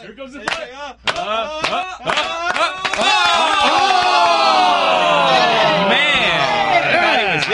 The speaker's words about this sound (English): Why are you guys clapping back there? You guys are doing... Well, that's what you do when you're awaiting a tennis challenge. You clap.